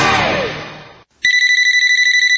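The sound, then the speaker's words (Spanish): Electronic telephone ring: a rapid, steady pulsing trill of bright tones that starts after a fading tonal burst and a brief silence, loud and alone. “Suena el teléfono y voy.”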